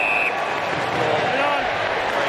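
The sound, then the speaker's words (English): A crowd cheers at an Australian football match, a dense, continuous roar of voices under a commentator talking. “And the crowd is loving it.”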